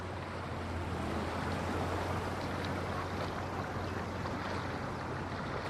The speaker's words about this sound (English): Waves crash onto the jagged rocks below.